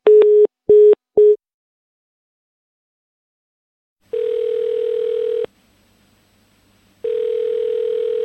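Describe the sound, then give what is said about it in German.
Telephone tones sound after a call is hung up: three short loud beeps in quick succession, then a pause, then two long, steady tones separated by a gap. “Ich leg jetzt auf.”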